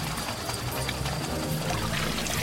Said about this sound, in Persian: تو نشستی کت زنشو میشوری؟